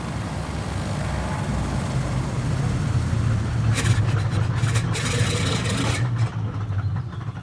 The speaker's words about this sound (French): Mais on aborde une descente. Alors, prépare-toi à l'atterrissage.